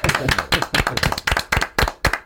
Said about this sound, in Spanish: Yo pido otra ovación para Adrián Gutiérrez.